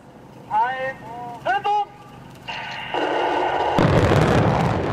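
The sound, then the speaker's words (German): Small explosive charges, fired electrically, detonate and bring down a large bridge. A broad roar and rumble swells after a few seconds and grows louder toward the end, preceded by brief voices. “Und dass so ein kleiner Sprengstoff so eine riesige Brücke einstürzen kann.”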